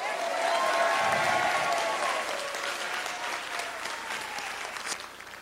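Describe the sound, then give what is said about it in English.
Audience applause and cheering for a departing colleague, a dense, steady wash of clapping with raised voices mixed in early on, holding at an even loudness for about five seconds before thinning out at the end. “Eric is a friend, a colleague, and let's give Eric Bridges a big hip, hip hooray.”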